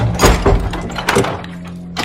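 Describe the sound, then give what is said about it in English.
A guard unlocks a courtyard door and then locks it again: a few heavy wooden thunks and metallic clunks with short gaps between them, ending in a softer knock. “In the next courtyard, a guard unlocks a door, sends Laura through, and then locks it again behind her.”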